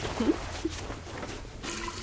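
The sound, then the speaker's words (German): Water running and splashing as someone washes with plenty of water in a bathroom: a soft, steady rush with a few small drips, growing fuller toward the end. “ins Badezimmer und wäscht sich mit viel Wasser”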